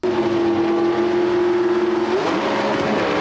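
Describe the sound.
Drag race cars on the starting line of a final round, their engines a loud, sustained roar with a steady droning tone that shifts and breaks up near the end.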